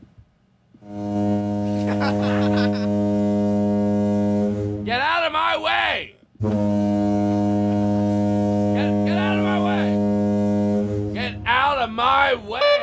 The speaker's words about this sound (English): Out of a principle, I'm going to keep blowing my new loud horn.